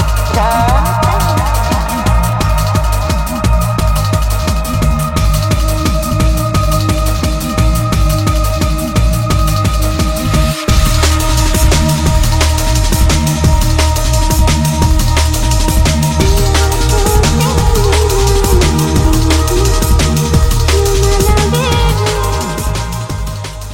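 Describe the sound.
A drum and bass track plays loud and continuous, with fast, dense, driving beats, pulsing low bass and sustained synth tones, and no talk.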